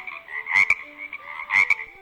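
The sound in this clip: Frog croaking: two rasping croaks, each followed by a short extra click, rise clearly above a soft, steady background.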